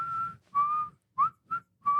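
A person whistles a tune from a movie in five clear, piercing notes separated by short pauses. Most notes hold a steady pitch, and one short note bends upward.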